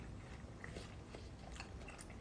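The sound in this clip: Chewing a bite of a seedy, light-flavored melon: soft, wet crunching and biting, faint and continuous, with no talk over it.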